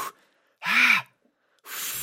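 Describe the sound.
A person forcefully blowing out a puff of air to drive away smoke: a breathy burst carrying a faint voiced hum that rises and falls, between softer breath noises at the start and end.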